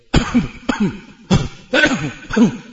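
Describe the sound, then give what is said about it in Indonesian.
A voice imitates the throat clearing of people in a public bathroom: five rough, hacking bursts in a fairly steady rhythm, each a loud rasp followed by a short voiced grunt. “kalau di kamar mandi kamu akan dengar mereka suka berdehem-dehem.”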